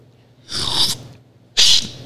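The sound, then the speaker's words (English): Two loud, airy slurping bursts from a close-up tasting, drawn in through the front teeth, each a harsh hiss lasting about half a second with a short pause between. “Okay, get in close so you can hear my amazing tasting.”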